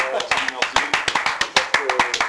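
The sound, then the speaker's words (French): Hands clapping to congratulate someone, a loud, fairly regular run of claps that continues under people talking across the whole stretch. “Il faut le féliciter, donc on l'applaudit. On va l'applaudir quand même.”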